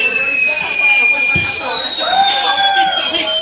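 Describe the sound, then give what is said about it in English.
Fireworks fizzing out, heard as long thin whistling tones that slowly drift and bend over a dense, steady hiss and crackle, with a brief sharp burst partway through. “I like the fact that the fireworks are fizzing out to the lack of music.”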